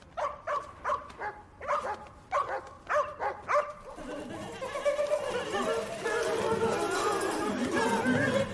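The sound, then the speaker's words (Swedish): Dogs bark in a quick run of many sharp, loud barks, then give way to a denser, continuous mix of noise. “Lugna ner er nu. Det är ju bara hundarna som skäller. Jag vet, bara hundar.”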